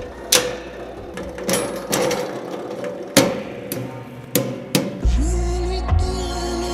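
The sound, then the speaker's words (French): Springs in a sound-making machine produce a series of sharp metallic clanks and twangs at irregular intervals, then a low rumbling drone takes over near the end. “Vous voyez, ce sont des ressorts qui font du bruit. Inspirant, ce sont des ressorts inspirants, vous voyez.”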